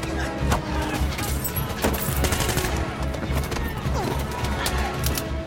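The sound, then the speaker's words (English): Gunfire tears through a chaotic brawl with bikers: many rapid, sharp shots and bursts in close succession, forming a loud, continuous barrage with no letup. “He grabs guns and blasts his way through the melee.”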